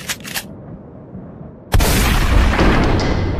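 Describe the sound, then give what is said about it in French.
A huge machine gun blasting open a trapdoor overhead: after a few faint early bursts, a sudden loud blast erupts partway through and carries on as sustained, roaring, booming noise to the end. “Ouah! T'as ouvert la trappe au-dessus de notre tête avec ton énorme mitrailleuse!”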